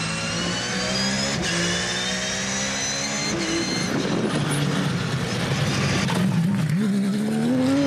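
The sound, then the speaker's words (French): A very low-slung car accelerates hard out of bends through small chicanes, its engine note rising and revving with pitch sweeps as it powers away, loud and continuous with faint tire noise and no talk. “la voiture est très très basse. Et comment ça ressort des virages, c'est un missile.”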